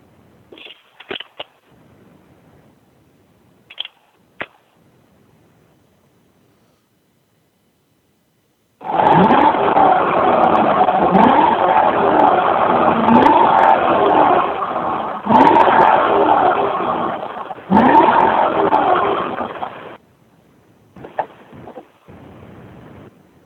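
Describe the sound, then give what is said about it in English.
A bone-stock 2SS RS daily driver revs its engine in a loud, sustained roar lasting about ten seconds with a brief dip partway. A few faint clicks come before it, and a quieter rumble follows. “Fantastic car, love driving it. It's my daily driver. Again, awesome podcast. Just give me a second here. I'm going to rev it up for you.”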